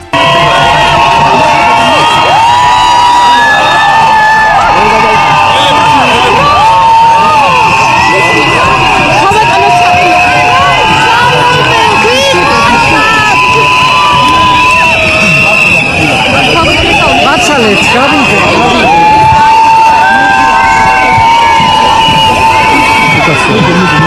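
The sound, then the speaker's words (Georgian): Loud crowd cheering and whooping at a rally outside the Orbeliani Palace, where people gathered in solidarity with the country's president. Dense, continuous roar of many voices, shouting and whoops, holding steady throughout. “მოუსმინოთ ყიჟინას ადგილიდან.”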